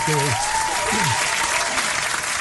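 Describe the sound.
Audience applause rings out as dense, steady clapping that stays loud for the whole stretch, with a voice speaking over the opening moments.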